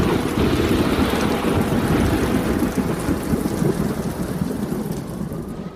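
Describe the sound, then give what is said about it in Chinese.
Heavy typhoon rainstorm with thunder: a dense, loud roar of pouring rain mixed with deep rumbling thunder, continuous throughout and easing slightly toward the end. “台风就卷积着暴雨呼啸而来了。”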